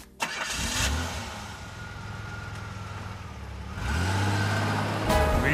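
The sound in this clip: A car engine starts: a brief crank, then the motor catches and settles into a steady, humming idle before revving louder toward the end, with another rise at the close.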